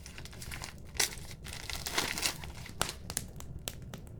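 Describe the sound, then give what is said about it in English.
Paper mail being opened and handled, an envelope holding an illustrated card, gives irregular crinkling and tearing rustles with a few louder crackles, quiet and without speech. “Oh, I see the mail's in. Let's take a look here, see what we have. This looks interesting.”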